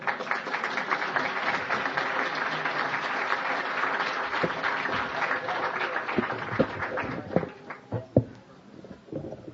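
Audience applause welcoming a guest on stage: a dense wash of clapping that holds for several seconds, then thins into a few scattered, separate claps near the end.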